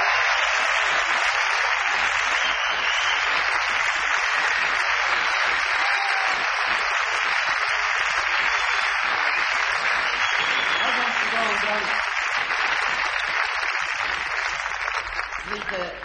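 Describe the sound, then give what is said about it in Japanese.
Sustained, loud applause from a concert audience as members of a jazz quartet are introduced on stage. The dense clapping runs steadily for the whole stretch with no breaks. “一人一人に盛大な拍手をお寄せいただきたいと思います。”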